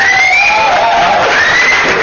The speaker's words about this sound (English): Well, you'll be able to after we give you some applause.